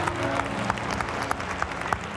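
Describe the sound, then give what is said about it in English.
A church audience claps in praise, a steady, moderately loud mass of hands with a few sharper individual claps popping out above the even wash. “Would you give the Lord a hand clap? Give Him a shout in this place.”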